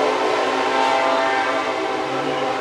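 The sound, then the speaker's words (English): A freight train passes through a working-class neighborhood between steel mills in Gary, Indiana, a loud, steady rumble with a sustained horn-like tonal hum that continues unbroken for the whole clip. “With the exception of frequent freight trains,”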